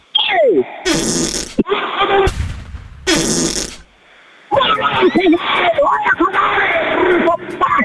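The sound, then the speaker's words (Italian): A few loud, blustery fart bursts break out among people talking, each a short rough blast of noise before the voices carry on. “Ha sentito che bomba che mi è uscita dal culo?”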